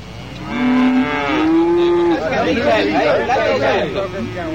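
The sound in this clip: A Frisian cow lowing in a field along a fence gives one long, loud moo that climbs slightly in pitch and holds, then overlapping voices chatter close by.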